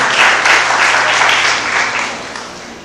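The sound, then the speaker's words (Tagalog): Applause from a church audience clapping during a sermon, a dense, loud wash of many hands that slowly fades toward the end. “Sige ka, palakpakan natin ang Panginoon.”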